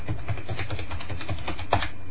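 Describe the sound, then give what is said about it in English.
Keystrokes on a computer keyboard as a password is typed in: a steady run of soft, quick clicks, with one sharper tap near the end. “Okay, again, it's asking me for a password. I just type in the password that I want to use. Re-enter new password.”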